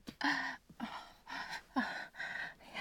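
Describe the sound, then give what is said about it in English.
Heavy, ragged breathing of a person catching their breath: a run of loud gasping inhales and exhales in an uneven rhythm, with no talk over it. “I just need to... I need to catch my breath.”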